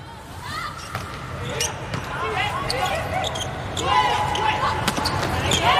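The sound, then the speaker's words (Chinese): A volleyball is bounced before a serve in an international women's match between China and Italy, giving a few sharp, separate thuds over steady crowd noise. “龚翔宇发球”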